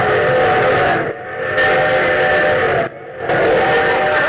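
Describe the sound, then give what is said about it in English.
Loud train whistle sound effect, a steady high-pitched steam whistle in three long blasts separated by two short breaks, with no voices. “What's that? I got a new train effect.”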